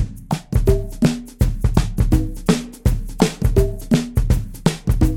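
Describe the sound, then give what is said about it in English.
MIDI percussion from a drum kit, conga and shaker plays together in a loud, steady repeating groove of sharp hits, with tuned conga tones over bright, hissing shaker and cymbal strokes. “I also added three MIDI percussion tracks, a drum kit, conga, and shaker. Together they sound like this.”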